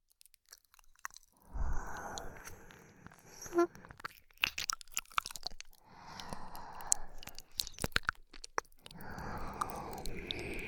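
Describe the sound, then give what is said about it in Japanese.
Wet ASMR mouth sounds of licking the left ear come in three soft bursts of smacking, crunchy clicks, separated by short quiet pauses. “今度は左のお耳をペロペロさせていただきます。”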